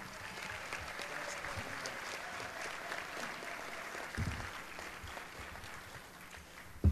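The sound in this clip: An audience at an ACB convention applauds to welcome a speaker to the microphone, with steady, soft clapping that holds through the whole stretch.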